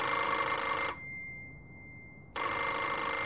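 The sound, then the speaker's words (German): A telephone rings with an incoming call from a newsroom's head office. Two bright, sustained electronic ring bursts are separated by about a second and a half of near silence. “Anruf aus der Hamburger Chefredaktion.”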